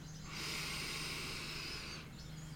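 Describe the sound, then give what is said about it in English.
A long, deep breath during a guided breathing exercise: one steady, airy hiss that swells and holds for well over a second, then fades, heard alone without talk. “So close your eyes. Let's take a nice deep breath in.”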